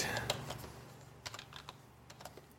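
Computer keyboard typing, quick bursts of light clacking keystrokes with an early cluster and a denser run of taps later, over a steady background hiss.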